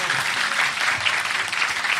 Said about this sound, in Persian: بزن کف تو دیگه، بگی بالا دست تو یا علی.